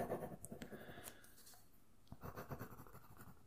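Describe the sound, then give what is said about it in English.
Pen scratching on paper as notes are handwritten for a patient's record during an eye examination: quiet, uneven scratchy strokes with a few small clicks, heard alone without talk. “I'm just writing notes.”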